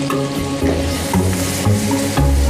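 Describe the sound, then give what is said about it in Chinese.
Stir-frying of deep-fried beef tossed over high heat in a thick, reduced braising sauce in a small pot: continuous sizzling with repeated scraping stirring strokes, steady and fairly loud, with no talk. “放入炸好的牛肉，充分翻炒，使牛肉挂满酱汁。”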